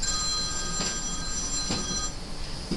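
A telephone rings in a Japanese home, its steady high electronic tones continuing through the whole clip. A few soft knocks are heard underneath.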